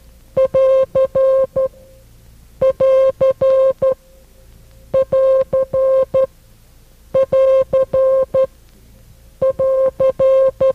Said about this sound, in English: The last of these three signs is the sign used for the end of a transmission. It is used more often. It sounds like this.